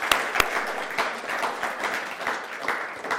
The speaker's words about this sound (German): Und jetzt denke ich, das ist ein großer Applaus.